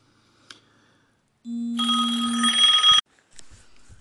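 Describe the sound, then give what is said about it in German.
A phone's electronic ringtone goes off in a single burst of about one and a half seconds: a low steady tone, then a bright, buzzy multi-tone chime. It stops abruptly, and faint sounds follow. “Entschuldigt diesen kurzen äh, Anruf, ähm, die kurze Störung.”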